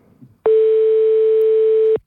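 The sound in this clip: A telephone tone sounds while a call is placed, one steady, unbroken electronic tone about a second and a half long. It is loud and alone after a brief faint rustle.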